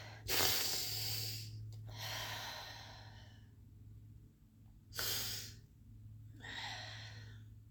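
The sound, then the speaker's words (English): A person takes a deep breath: a long, breathy inhale followed by softer sighing exhales in a few separate bursts, fairly faint over a low steady hum. “I'm just gonna take a deep breath here.”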